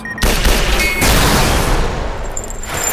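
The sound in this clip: Gunfire rips down a hallway in a loud, dense volley that holds for about two seconds, surging again partway through before tailing off.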